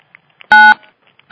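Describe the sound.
Electronic tones sound on a conference call as callers are unmuted: two loud, steady, buzzy beeps, the second starting just before the end, with faint short blips between them.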